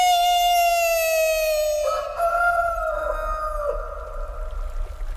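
A rooster crows once in a single long, loud call that holds a steady, bright harmonic tone, then drops slightly and breaks up in its closing seconds, heard alone.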